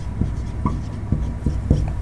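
Handwriting as the word plenary is written out: a few soft, scratchy pen strokes and taps in an uneven rhythm, with no talking.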